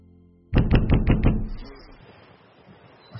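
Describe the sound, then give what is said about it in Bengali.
Heavy banging on a door: a rapid run of several loud, hollow knocks, then a brief low rumble that fades into quiet. “ঘুম ভাঙল দরজা ধাক্কানোর আওয়াজে।”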